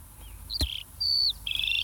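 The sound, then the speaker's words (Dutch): Song of a skylark: a few thin, high whistled notes, some drawn out and steady, fairly faint and heard alone. “Oh, wat is dat? Volgens mij is dat een leeuwerik.”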